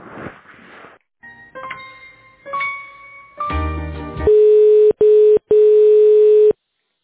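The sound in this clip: Electronic telephone tones play while a call is being transferred. A few stepped beeps at changing pitches build up, then a loud, steady single-pitch tone follows, broken by two short gaps before it cuts off.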